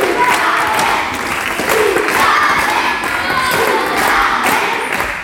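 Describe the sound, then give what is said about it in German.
More than 150 children cheer and applaud in their own primary school after a big-stage-style performance. Loud, high-pitched shrieks and shouts rise and fall over continuous clapping and a few dull thumps. “Was nämlich sonst wirklich auf den ganz, ganz großen Bühnen stattfindet, das haben gestern über 150 Kinder in ihrer eigenen Grundschule erleben dürfen. Und die Reaktion, die fiel ungefähr so aus.”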